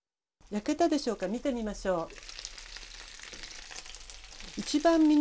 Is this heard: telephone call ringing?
no